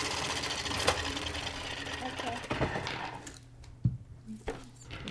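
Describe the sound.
A spin art toy's motor whirs as it spins paper fast, a steady buzzing drone with a few knocks, which thins out about two-thirds of the way through.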